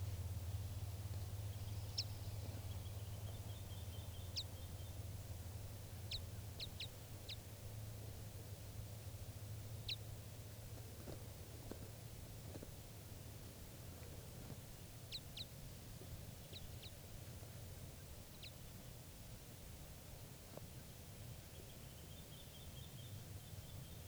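Short, sharp call notes of a tape-recorded type 5 crossbill come in scattered single calls and quick pairs, faint and high-pitched, over a constant low background hum.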